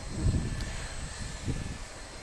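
A Waco QNF open-cockpit biplane's engine idles while taxiing in a line of aircraft waiting to depart, a low, steady rumble with a few soft pulses rising and falling, no voices.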